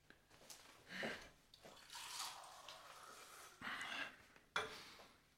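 Faint water pours into a glass in a few short splashing bursts separated by brief pauses, with a sharper small knock near the end.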